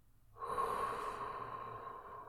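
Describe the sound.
A long exhale through the mouth during a guided breathing exercise: a quiet, breathy rush that starts suddenly, peaks early and slowly fades while continuing to the end.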